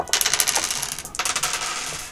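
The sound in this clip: Dice rolled for a tabletop sabacc game, three green dice each, making two bursts of rapid clattering clicks that tumble and settle. The second burst begins midway through.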